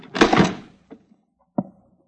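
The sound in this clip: A locked satchel being broken open: a loud, rough forcing burst of about half a second, then two short dull knocks, the second sharper than the first, with no talking.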